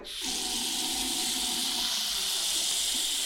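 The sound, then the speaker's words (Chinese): Water runs from a tap at full flow into a washbasin as it fills, a steady, loud rushing hiss that starts abruptly and continues without pause. “把这个洗手盆装满水，把水开满。”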